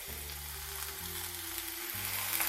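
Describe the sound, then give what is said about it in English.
Mushrooms sear in a hot pan, spaced out in a single layer, giving a steady, faint sizzle that runs unbroken on its own. “The mushrooms are pretty spaced out. They're not piled on top of each other. It was just enough to fit the bottom of the pan without having to really do that much. So I think they're pretty good shape. Just kind of let them sear for about a minute,”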